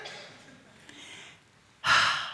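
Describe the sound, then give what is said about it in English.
A person breathing out in a single strong, breathy rush near the end, after a stretch of soft, quiet breath noise. “Exhale.”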